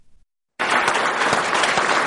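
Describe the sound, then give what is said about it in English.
Dense applause from scientists in the Indian space agency's command center in Bangalore as a Mars craft enters orbit around Mars. It bursts in suddenly after a brief near-silent start and stays loud and steady to the end. “The scientists cheered and shook hands as the spacecraft entered into the orbit of Mars.”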